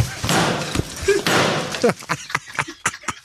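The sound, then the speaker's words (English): Raw pork bashed hard to tenderise it for a sweet and sour dish, heard as loud broad crashing blows and then a quick series of many sharp, dry thuds. “I'm going to make you my sweet and sour pork to help tenderise the meat. Yeah. Just simply give it a good bash.”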